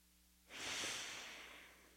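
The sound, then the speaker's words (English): One long inhaled breath during a breathing exercise, a soft airy rush that starts abruptly, peaks quickly and tapers off over about a second and a half, faint and alone. “So you inhale again.”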